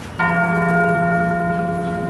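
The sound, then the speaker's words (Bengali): A bell rung once by hand at a cave shrine gives a single strike, followed by a long, steady ringing hum of layered overtones that slowly fades while echoing off the surrounding stone walls. “বাইরে বের হওয়ার সময় পটাই একবার হাত দিয়ে ঘন্টাটা বাজালো”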